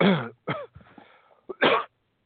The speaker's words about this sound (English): sorry about that. Didn't mean to cough in your ear.